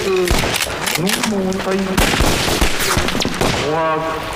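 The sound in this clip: Gunfire follows an order to shoot, with many sharp, loud shots cracking in a rapid, uneven volley. Voices sound over the shooting.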